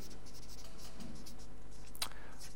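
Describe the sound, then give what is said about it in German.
Writing on a board as a word is written out during a Bible teaching talk: faint, steady scratchy strokes with one sharper tap near the end, heard alone without speech. “Ja, also ich schreibe mal hier so Gesamtvision.”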